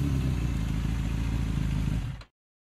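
A motorcycle engine drones steadily and loudly as the rider drops into a pothole, then the sound cuts off abruptly, leaving silence.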